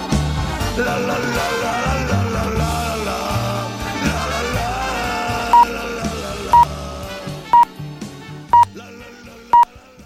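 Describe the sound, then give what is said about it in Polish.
Five short, identical high pips of a Polish radio time signal sound at even one-second intervals, clear and loud, as music fades beneath them. “Spokojnie, to tylko ćwiczebny sygnał czasu.”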